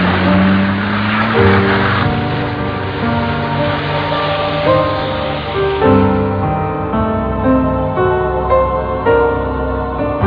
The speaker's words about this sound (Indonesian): Aku mengendarai mobilku menuju sebuah perumahan di daerah Marga Cinta.